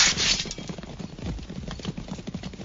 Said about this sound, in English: My lord king, there are horsemen behind us. They are overtaking us, riding hard.